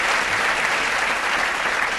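Audience applause fills the whole clip, a dense, steady wash of many hands clapping at an even, fairly loud level with no break.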